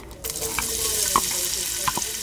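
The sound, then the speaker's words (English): Spaghetti with onions and chilies sizzles in a pan as a loud, steady frying hiss, broken by a few brief clinks of stirring. “As two of the girls cook tonight's meal, spaghetti with a few onions and chilies, Joseph”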